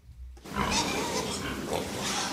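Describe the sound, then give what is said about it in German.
Piglets and sows stir in a pig barn, with grunts and higher squeals over a steady background of barn noise. The sound starts abruptly after a brief quiet moment and then continues without a break. “In den einzelnen Abteilungen liegen die Ferkel bei ihren Müttern. Neugierig schauen sie nach oben.”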